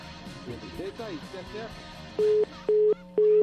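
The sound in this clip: Telephone tone from a call to a landline: three steady mid-pitched beeps, evenly spaced with short gaps, after a stretch of talk.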